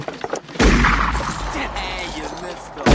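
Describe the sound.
A loud gunshot bursts out during a confrontation, leaving a long ringing tail, and a second sharp report hits at the very end, with faint voices in between.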